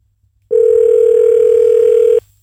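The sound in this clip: A telephone dial tone heard while calling a number: one loud, steady, mid-pitched tone lasting under two seconds, starting and stopping abruptly, alone with no voices.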